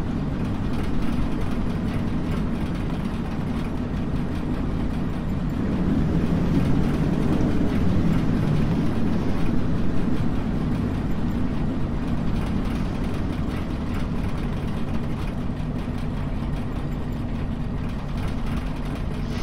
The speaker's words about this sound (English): That is the sound of the aircraft being damaged, I think.